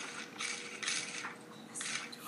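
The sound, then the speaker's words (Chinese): Washing machine spinning fast: a continuous whirring, rattling mechanical drone that swells and eases in waves, fairly faint. “好，我要开洗喽，洗，哇，你看。哇，这洗衣机好厉害呀，转得可快了。”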